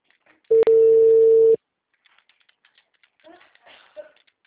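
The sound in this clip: A telephone ringing tone while a call is placed: one long, steady, low-pitched tone lasting about a second, followed by faint clicks and a brief, soft murmur of voice.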